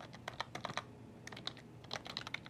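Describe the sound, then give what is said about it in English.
Keys clatter on a computer keyboard as an account name is typed in: a quick burst of many crisp keystrokes, a short pause, then another run of taps, with no voices. “So let me go ahead and type in the agent account.”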